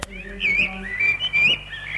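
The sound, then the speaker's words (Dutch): Birdlike chirps open a song: short, warbling high whistles rising and falling over soft sustained musical tones. “Met vogeltjes en al.”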